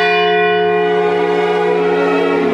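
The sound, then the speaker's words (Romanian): A bell striking one after midnight, a single loud toll whose rich, layered overtones ring on steadily through the whole clip without another strike. “Unul după miezul nopții sună rar în vecinătate.”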